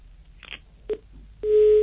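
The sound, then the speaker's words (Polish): A telephone line tone sounds as a call disconnects: a brief blip, then a short beep, and finally a steady, loud, continuous tone that runs to the end. “Niestety nastąpiło rozłączenie w ferworze wymiany naszych myśli”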